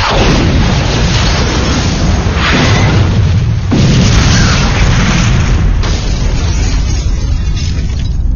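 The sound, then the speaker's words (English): An explosive charge sets off plastic explosives and ignites a vehicle's gas tank, a loud, sustained roaring rumble with a few sharper bursts breaking through over several seconds. “the explosive charge triggered off the plasecs they had with them and ignited the wag's gas tank”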